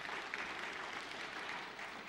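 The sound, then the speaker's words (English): Audience applause for a child's performance at a church family gathering, a steady dense patter of clapping hands that stays fairly even and moderately loud throughout, with faint voices mixed underneath. “Round of applause for Joseph.”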